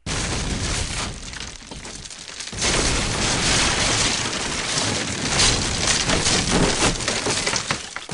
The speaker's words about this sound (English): And we also hear those cannonballs actually hitting things.